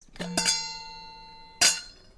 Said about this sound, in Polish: Wtem, jakby w odpowiedzi wołaniu, z zewnątrz, właśnie z owych śnieżnych dalekości nocą pokrytych, doszedł głos dzwonka.